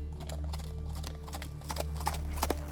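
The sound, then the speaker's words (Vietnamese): A horse's hooves clopping slowly as it is ridden through a city gate: a few soft, irregular hoof falls, faint over a steady low hum. “Thái tử lúc này chậm rãi thúc ngựa đi qua cổng thành, hướng vào bên trong.”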